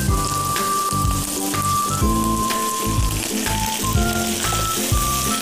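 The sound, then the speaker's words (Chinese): Diced ham stir-fried in a wok gives a steady, bright sizzling hiss that runs throughout, with music playing underneath. “翻炒一分钟，逼出三种食材的清香，倒入火腿丁，继续翻炒。”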